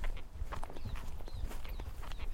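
Hooves of a horse walking slowly toward a gate at the end of an endurance ride make a steady, easy clip-clop rhythm at a moderate, even level.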